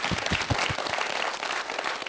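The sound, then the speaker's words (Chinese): Audience applause breaks out during a Chinese–Japanese word-guessing game, starting with a few distinct claps that quickly merge into a brief, even wash of clapping. “那我们掌声送给哈辉哈。”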